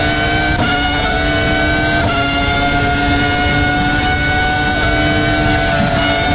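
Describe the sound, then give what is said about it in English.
Ferrari Formula One race car engine during side-by-side racing, a loud, continuous high-pitched whine that runs for several seconds with a few abrupt pitch shifts. “Oh, you can see that Ferrari power, right? Look at that.”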